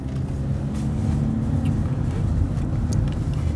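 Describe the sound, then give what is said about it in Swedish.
A car drives along, producing a steady, loud low rumble of engine and road noise that holds evenly throughout with no voices. “Och vi närmar oss slutet på den här bilresan.”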